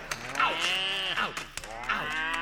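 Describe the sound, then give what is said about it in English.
Cattle moo from a herd of about a thousand head on the move in the heart of the West. A few long, loud, drawn-out calls overlap one another against a steady rumble. “the rear end of 1,000 head of moving cattle in the heart of the West.”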